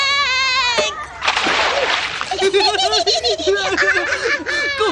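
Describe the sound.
A single broad splash of someone jumping into a swimming pool, a short loud whoosh of water lasting under a second. A high-pitched voice sounds just before it, and high, giggling voices continue afterward.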